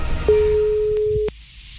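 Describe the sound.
A single steady telephone tone sounds for about a second on the line during a prank call to a country inn, then cuts off abruptly into quiet line noise.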